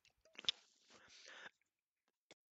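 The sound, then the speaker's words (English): Wet spitting and squelching mouth sounds as chewed Juicy Fruit gum is spat out, a few sputtering bursts over about a second, then quiet and a single short click. “Okay, I'm going to spit this out.”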